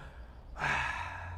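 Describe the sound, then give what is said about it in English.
A single long, deep breath by a man, drawn in suddenly after a moment of quiet and held steady and breathy for nearly a second, fairly loud with no talk over it. “Deep breath.”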